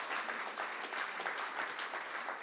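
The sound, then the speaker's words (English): Audience clapping at a Christian gathering: dense, steady applause that holds an even level for the whole stretch, with no talk over it. “Even the Christians clapping there.”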